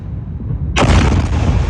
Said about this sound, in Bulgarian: Видео от социалните мрежи показва момента, в който ирански ракети и дронове се разбиват в американска база в Йордания.